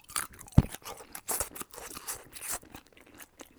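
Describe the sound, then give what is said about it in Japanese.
Crisp, crunchy chewing of a simmered in-season bamboo shoot from a dish of lotus root, taro, carrot and konjac: many irregular bites and crunches, one sharp louder bite early on, with no talking. “旬だから、じゃあ、たけのこいただきましょうか。これ、めっちゃうまい。”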